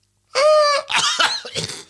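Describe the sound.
A human voice imitates a growling science-fiction creature: a short, strained, buzzing roar, then rough cough-like bursts as the attempt breaks up.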